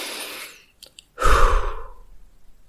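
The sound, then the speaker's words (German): Deep, breathy exhales of calming breaths: a soft airy breath fading out, a short pause with a couple of faint clicks, then a long, loud breath that slowly trails away. “Dann dreimal tief einatmen.”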